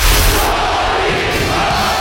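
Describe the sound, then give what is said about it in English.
A Russian crowd from the 1980s chants an American's name, heard as a loud, continuous wall of massed voices that holds steady for the whole stretch without clear breaks. “A Russian crowd chanting the American's name in the 1980s.”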